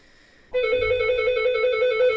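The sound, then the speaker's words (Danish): A doorbell ringing: a bright, steady electronic tone with a fast pulsing warble that starts abruptly and continues on its own without pause. “Nu ringer simpelthen på døren nu.”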